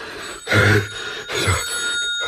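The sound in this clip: A telephone rings in two loud bursts of bell-like trilling, with a short quiet gap between them and no voices over the ringing.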